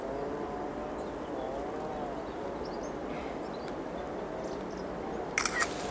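A camera shutter clicks during wildlife photography on a lowland heath, as a quick two-part click near the very end. Before it there is a steady, soft outdoor hiss and nothing else.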